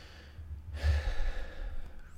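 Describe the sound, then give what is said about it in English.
A single deep breath drawn and let out in a long, breathy sigh that swells after a quiet start and holds steady until the end, with no talking. “Nice big deep breath.”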